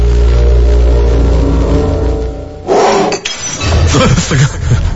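A glass of water slides and falls off a table: a loud low rumbling scrape, then a sudden bright crash of glass with clinking and rattling clatter afterward.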